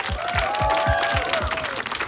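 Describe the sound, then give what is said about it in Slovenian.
Audience applause for bands at a music contest final: dense, steady clapping from a crowd, sustained at an even level throughout the short stretch. “vsem bi radi rekli najlepša hvala prvo, pa jim dala en velik aplavz, vsem več kot 50-im.”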